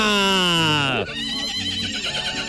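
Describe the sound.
A mare from a farm neighs in a loud, long whinny with a falling, quavering pitch, then a voice speaks.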